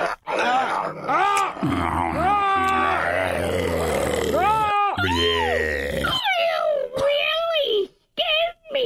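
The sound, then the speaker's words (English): Voices imitate zombie groans: long, drawn-out moans and growls with wavering, sliding pitch. Several loud, sustained groans run almost back to back, with a few short breaks between them. “Let's make some zombie noises together. That will really scare her.”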